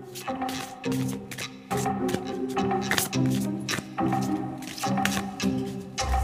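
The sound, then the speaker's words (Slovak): A deck of cards is shuffled by hand, giving repeated papery rustling and flapping bursts in a steady rhythm throughout, over a low continuous background. “Ideme miešať kartičky?”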